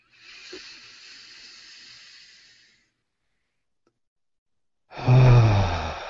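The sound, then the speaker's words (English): Two deep, breathy exhales during a guided breathing exercise: a long, soft, hissing outbreath, a pause of silence, then a louder, fuller exhale with a low voiced tone running through it. “Deep exhales. You can vocalize your exhales.”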